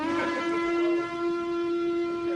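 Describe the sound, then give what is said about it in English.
Twitch hype train alert sound, a sustained whistle-like tone with a strong steady pitch and stacked overtones, fairly quiet and holding level without breaks. “Thought we had breaking news or something. Hype train. That is a hype train.”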